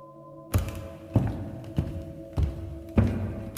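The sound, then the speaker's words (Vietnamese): Footsteps approaching, heard as a steady, evenly spaced series of heavy thuds that begins suddenly after a quiet stretch with a faint low hum. “Sau đó có tiếng bước chân vang lên.”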